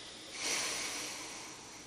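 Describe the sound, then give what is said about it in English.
A slow exhale through the left nostril during alternate-nostril breathing. It is a soft, steady, airy hiss that swells early and then gradually fades. “you put the ring finger over the left nostril, and remove the right thumb, your thumb from the right nostril, and exhale.”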